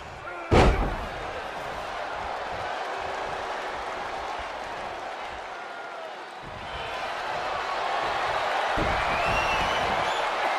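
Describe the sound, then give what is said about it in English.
A single loud, sharp thud as a wrestler drives a knee into an opponent's face after a turnbuckle throw in the WWE 2K23 video game, followed by a steady crowd roar. “Thrown in the turnbuckle and takes a huge knee to the face.”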